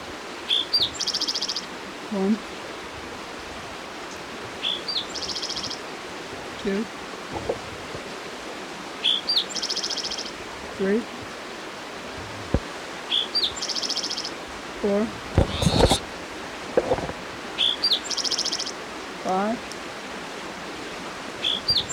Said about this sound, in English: It's your spotted towhee number 5 for the Hendrys Creek area.